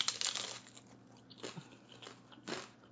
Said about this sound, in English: So now I'm going to try the whole appetizer together in one bite. Tomato, chip, avocado puree.